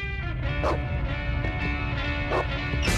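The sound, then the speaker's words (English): Excited dogs barking and yipping as they rush down the stairs, short scattered barks and a whimper breaking over a steady musical backdrop. “Puppies thunder down the stairs, only they're not puppies anymore.”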